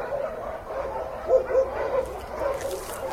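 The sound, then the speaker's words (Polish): Dogs bark at an animal shelter. A few short yips and barks, the clearest two just past the middle, rise from a steady background hum. “Idę teraz ulicą Pamiętną w kierunku schroniska i słychać już szczekanie zwierzaków.”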